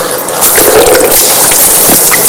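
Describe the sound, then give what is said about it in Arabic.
Hand-scooped water splashes onto a face during Islamic ablution (wudu): a continuous wet sloshing and spattering, moderately loud, swelling slightly after the first half-second and holding steady to the end. “هكذا غسل الوجه. هكذا أخذت الماء بيدي ثم غسلت وجهي. أعيدها مرة ثانية أو هي ثلاث مرات في الأصل.”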